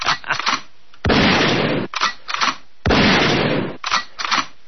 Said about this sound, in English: I deserve 2 shots in the head. All right, here you go.